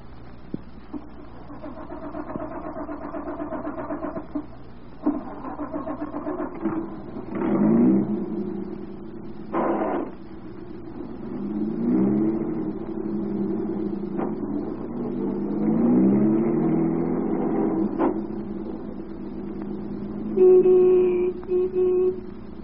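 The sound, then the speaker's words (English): A car drives away onto a highway. A low, steady engine rumble swells several times as the engine revs and accelerates. “Drove away from Willow Springs, got out onto the highway, and started toward town.”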